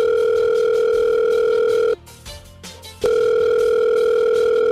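An outgoing telephone call gives a loud, steady line tone that cuts out for about a second and then resumes unchanged, with no voices.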